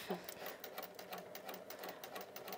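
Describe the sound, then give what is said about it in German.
A sewing machine stitching with a long stitch length for gathering fabric, a rapid, even mechanical chatter that runs quietly and continuously. “Wichtig ist jetzt bei all den Maschinen, die eine automatische Nähfunktion haben, die auszustellen.”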